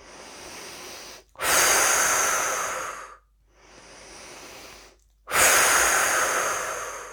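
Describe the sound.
Breathing exercise with long airy breaths: four sustained breaths, softer ones alternating with two loud, hissing exhales, each separated by a brief silence.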